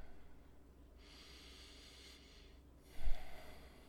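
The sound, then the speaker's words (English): A person takes a deep breath, quietly: a long airy inhale of about a second, a pause, then a shorter, stronger exhale with a snort-like puff. “let me just take a deep breath”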